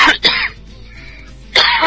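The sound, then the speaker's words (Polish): A cough with throat clearing: a harsh burst at the start, a quieter rasping stretch, then another loud burst at the end, with no talk. “Normalnie kaszel mi się zbiera, jak to mówię.”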